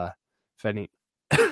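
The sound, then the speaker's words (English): Coughing and throat clearing from a person with a lingering residual cough: a few short, rough bursts separated by silence, with no talk. “Still have a little bit of a residual cough and some nastiness.”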